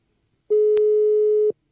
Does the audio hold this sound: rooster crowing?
no